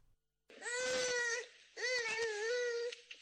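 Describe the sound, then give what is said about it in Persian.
Child crying in a village in Herat, Afghanistan: two long, loud, wailing sobs with a strained, tonal quality, separated by a short catch of breath. “این صدای گریه کودکی است در یکی از روستاهای هرات، کودکی که هنوز طعم درد و بیماری را نچشیده اما در خطر است.”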